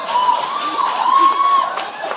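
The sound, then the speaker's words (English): Audience cheering at a speech, a steady wash of crowd noise with a high sustained whoop running through most of the short stretch, holding at an even loudness throughout. “And as many of us cheer for that, and sharing our honor of being despised by Ronald Reagan”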